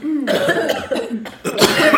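A person coughs from too much smoke in several rough, raspy bursts over two seconds, loud and alone with no talk.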